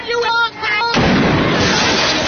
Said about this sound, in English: when the shotgun accidentally went off